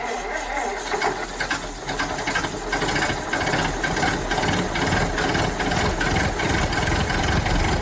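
SEAT car engine idling: a loud, continuous, rough mechanical rumble with a rapid rattling pulse, holding steady throughout.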